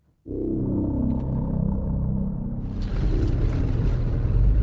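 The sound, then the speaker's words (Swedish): A car's engine rumble starts after a brief silence, then a louder, broader crunching road noise joins as the car runs on a small gravel road through an avenue lined with large trees. “Jag har svängt av stora vägen och åker en liten grusväg, en allé kantad av stora träd.”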